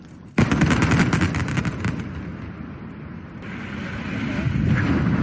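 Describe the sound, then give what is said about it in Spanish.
An explosive charge brings down the first of five chimneys at the Avilés coke battery plant, on the old Ensidesa site, in September 2023. A sudden loud blast gives way to crackling and then a long, deep rumble. “Era septiembre del año 2023 y con ese barrenazo caía la primera de las 5 chimeneas del parque de baterías de Coc de Avilés.”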